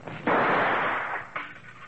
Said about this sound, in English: How'd you learn to draw and shoot like that?